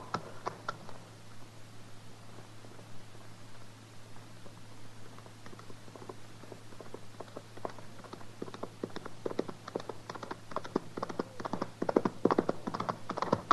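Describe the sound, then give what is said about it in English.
Horse hooves pound at a hard gallop, a cowboy riding fast in an old-time Western radio drama: many rapid, uneven clattering beats that grow denser and louder toward the end, over a steady low hum, with no talking. “He's riding pretty hard. Ride like man afraid.”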